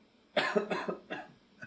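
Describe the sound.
A man coughs several times in quick, harsh bursts, loud and rough with short gaps between them, and no speech.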